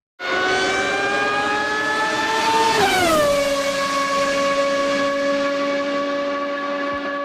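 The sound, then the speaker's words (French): Formula 1 racing car engine at the Canadian Grand Prix open day: a loud, high, sustained whine that drops sharply in pitch about midway, then holds at a lower tone. “le son qui réjouit des amateurs de course automobile et en particulier de Formule 1”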